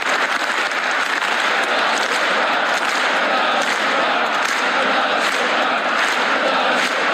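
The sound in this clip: Stormy applause in a Turkmen assembly hall during a speech by President Berdimuhamedov: loud, dense, sustained clapping that holds a steady level for about seven seconds.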